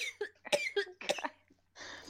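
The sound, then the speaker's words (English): Harsh coughing fit after accidentally inhaling saliva: several sharp, wet coughs in quick succession, each a broad burst, followed by a hoarse, breathy rasp at the end. “I just inhaled. I inhaled my own spit. It went right down my throat.”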